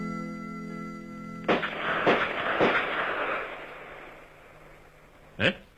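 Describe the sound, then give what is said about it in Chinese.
Live-fire gunshots from police detectives at a shooting range: four sharp cracks, three in quick succession and a fourth a few seconds later, each leaving a brief ringing tail. “803就带领他的部下刑警队员开赴靶场实弹练习。清脆的枪声划破了万里晴空。”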